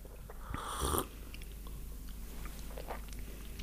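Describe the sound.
People tasting coffee give one loud, breathy slurp, followed by faint mouth sounds and quiet sipping.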